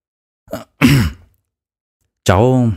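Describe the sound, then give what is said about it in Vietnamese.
A man clears his throat in two quick, rough bursts, then after a pause gives a sustained voiced hum. “Trương Đông Thăng đằng hắng một tiếng rồi nói,”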